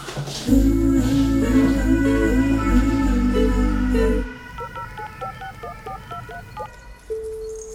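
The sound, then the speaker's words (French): Touch-tone beeps of a telephone number being dialed, a quick string of short tones that follows loud music as it cuts off. A steady low tone begins near the end. “j'appelle Diane tout de suite”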